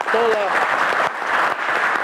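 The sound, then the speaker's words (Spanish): Applause for the Foreign Ministry team during a live link between Caracas and New York: a loud, dense, steady patter of many clapping hands, with a voice briefly heard over the start. “Vamos a darle un aplauso”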